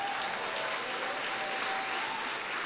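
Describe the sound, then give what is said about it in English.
A church audience claps for Jesus during a Sunday night service, producing a continuous wash of applause that stays even and unbroken from start to finish. “Stand on your feet, everybody. As soon as you get on your feet, I want you to give Jesus one more final hand clap on this Sunday night.”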